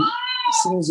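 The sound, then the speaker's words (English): A cat meows: an old male cat said to have dementia and to keep seeking out his owners. One drawn-out, tonal meow comes first, then speech takes over. “I'm sorry, what you're hearing is my cat.”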